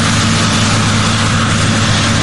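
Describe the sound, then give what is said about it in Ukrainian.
A combine harvester works in a grain field with a loud, unbroken engine drone and a deep steady hum, constant in level throughout, with no voices. “Чи правильно налаштований комбайн, перевіряють разом наставник і молодша агрономка Катерина”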